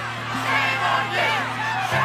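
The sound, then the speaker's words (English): A crowd of women at a mourning vigil being cleared by police: many voices shout and call out together in a continuous, loud roar over a steady low drone. “That's women who gathered to mourn for the death of Sarah Everard and found themselves being cleared away by police, who said it was an illegal demonstration just 2 years ago.”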